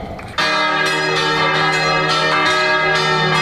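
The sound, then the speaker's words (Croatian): Church bells ring out in Kotor at the opening of an arts festival. After a brief, quieter start, several bells clang together in a dense, overlapping peal of repeated strikes, loud and sustained. “U ime oproštaja, pomirenja i ljubavi, zvona zvonite!”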